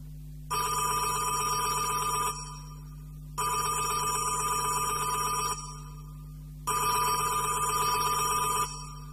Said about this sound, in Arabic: وجاله تليفون.